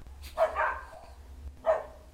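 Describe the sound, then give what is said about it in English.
Dogs bark: two short, faint barks separated by a quiet gap of about a second. “I'm sorry for the dogs.”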